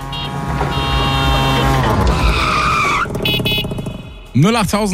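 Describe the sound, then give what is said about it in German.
A tuk-tuk auto rickshaw driving sound effect: a buzzing small engine revs with climbing pitch, then gives way to a sharp, screechy skid, loud and fast-paced throughout. “Immer wenn ihr diesen Tuk-Tuk-Sound bei uns hört, ist das die Chance.”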